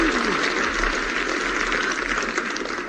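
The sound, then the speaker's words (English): Audience applause: a dense, steady wash of many hands clapping that holds at a fairly even, moderate level for about three seconds. “Stop that anti-sequel applause.”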